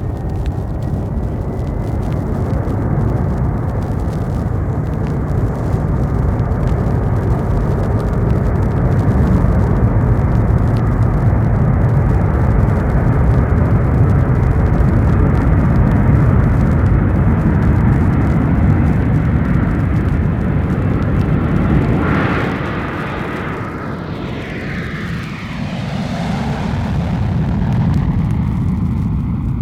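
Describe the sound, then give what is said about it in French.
Roar of a Boeing 707 airliner taking off at the end of a runway: a loud, sustained, broad jet rumble that dips briefly near the end and then swells again. “Un avion doit décoller au bout de la piste. On dirait une caravelle? Non. C'est un Boeing 707.”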